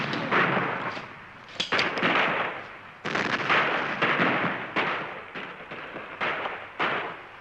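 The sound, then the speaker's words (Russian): Gunshots in a shootout, a White Guard fighter finishing off an opponent: a run of sharp, loud reports at irregular intervals over a continuous rumbling din, with no talk. “Друг встает и стреляет. Белогвардеец добивает противника.”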